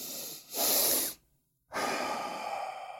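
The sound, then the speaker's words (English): Breathing exercise with a double inhale through the nose: two quick sniffing inhales, the second louder, then a brief silence and a longer, steady exhale, with no talk. “It's a simply, you breathe through the nose with a double inhale like this.”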